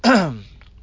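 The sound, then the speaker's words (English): Throat clearing from a tickle in the throat: a single short voiced rasp that drops in pitch and fades within about half a second, followed by quiet. “God tickled my throat.”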